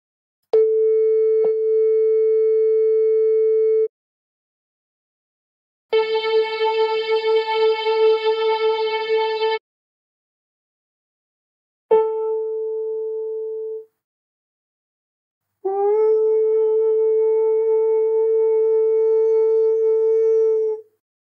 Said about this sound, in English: Listen to four versions of the note A at 440 Hz. The first is from a tone generator, the second from a violin, the third from a piano, and the fourth from my voice.